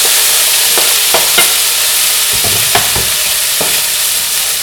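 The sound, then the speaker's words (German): Beans sizzle steadily in a frying pan, a constant bright hiss broken by a few short scraping stirs. “jetzt kommen die Bohnen dazu. Mal kurz vom Herd nehmen.”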